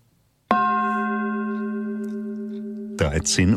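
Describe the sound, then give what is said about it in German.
A time signal marking 1 p.m.: one sustained, harmonic-rich electronic tone that starts abruptly and fades slowly over about two and a half seconds, then a voice begins speaking. “Wir geben Ihnen die genaue Zeit. In 10 Sekunden ist es 13 Uhr. Noch 5 Sekunden.”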